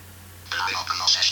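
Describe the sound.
Telephone keypad dialing tones, a few short electronic beeps at differing pitches, starting partway through and sounding clearly over a faint low hum.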